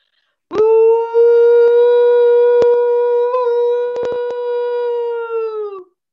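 A person makes a loud, siren-type whooping call, one long, steady, howl-like tone held for about five seconds before sagging at the end, with a few sharp clicks over it.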